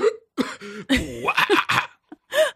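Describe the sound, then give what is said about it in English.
A voice imitates hiccuping while inhaling a cigarette: a loud, choppy string of croaky, throaty vocal bursts and gulps with cough-like catches, broken by brief silent gaps. “Sometimes, like, I'll hiccup when I'm in the process of inhaling a cigarette, and I'll be like,”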